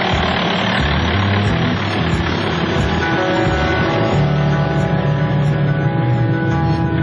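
A vehicle engine runs steadily while driving a frontline road toward a dam, carrying a medical volunteer team: a loud, continuous low rumble and drone with no breaks and no talk.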